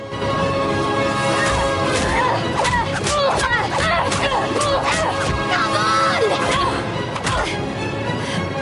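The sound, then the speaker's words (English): Repeated punches land as two fighters grapple on the ground, a dense run of heavy whacks and thuds over a constant loud bed of noise with voice-like sounds mixed in. “Now on top, Lottie punches Eva repeatedly.”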